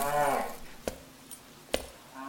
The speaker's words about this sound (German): ich glaub, hier liegt noch ein Rind.